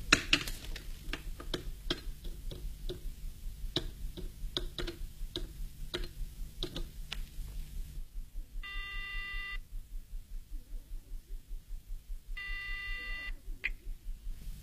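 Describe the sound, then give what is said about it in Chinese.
A telephone call being placed: a long run of quick, regular clicks gives way to two separate bursts of ringing tone with a quiet gap between them. “夜莺马上给许文挂电话”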